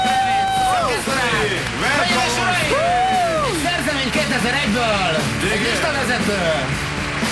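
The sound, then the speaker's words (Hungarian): An audience welcomes a performer back onto a revolving stage with loud cheering, whoops and clapping: many rising and falling shouted voices overlap continuously above a steady bed of crowd noise. “Tapsoljuk vissza az előadat, üdvözlök ütemes tapsal újra a forgószínpadon.”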